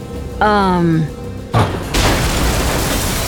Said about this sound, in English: With a deafening crash, the gate exploded.